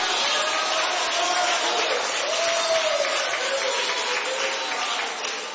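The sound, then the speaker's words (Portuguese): A church audience applauds and cheers during a service. The clapping is steady and dense, with raised voices mixed in, and it holds at an even loudness for the whole stretch. “Aqui nessa tarde faz barulho o templo da glória de Deus.”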